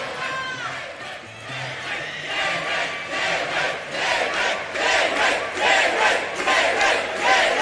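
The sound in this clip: An audience at a show cheering, whooping and shouting in a sustained roar that grows a little louder toward the end.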